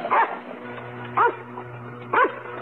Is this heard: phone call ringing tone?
no